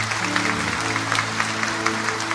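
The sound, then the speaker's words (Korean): Applause from a church audience giving praise to God, a dense, steady patter of many hands that runs throughout, with low sustained instrumental tones playing underneath. “우리와 함께 하시는 하나님께 영광의 박수 올려드리겠습니다.”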